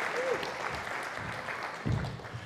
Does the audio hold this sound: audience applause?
yes